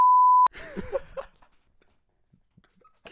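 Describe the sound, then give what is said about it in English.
A censor bleep over swearing: one steady, high-pitched beep lasting about half a second, loud and pure, cutting off abruptly into quieter, muffled talk. “Oh, that's getting cut out. Oh, my fucking God. Oh, I'm just going to bleep that.”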